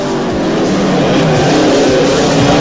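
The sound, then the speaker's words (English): Motorbikes speeding off along a walkway toward a beach: a loud, steady engine roar that holds without letup from start to finish. “David and his gang speed off down the walkway, then ride straight down the steps onto the beach, which has bonfires burning on it.”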